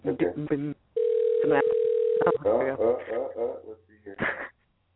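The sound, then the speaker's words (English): A phone call rings out while waiting for an answer: one steady, sustained ring tone of about a second and a half sits between stretches of people talking. “How many rings do you think he'll answer? I don't know. Four? I think, you know, it's almost cool when you give people voicemails. I'm going to say four. All right, that's three.”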